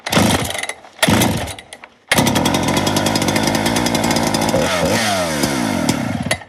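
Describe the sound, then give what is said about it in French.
A large felling chainsaw runs after a clutch repair: two brief loud revs, then a sustained, loud, harmonically rich engine drone that shifts in pitch near the end. “Ça, c'est pas de la petite tronçonneuse, ça fait déjà partie des grosses machines. Donc ça, c'est plutôt pour de l'abattage.”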